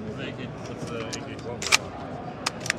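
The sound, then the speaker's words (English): A rifle's bolt release being worked gives a few sharp metallic clicks and clacks, heard under ongoing talking. “We got bolt release right there, which for all the Americans, they're gonna fucking hate it. Coming back here for your bolt release.”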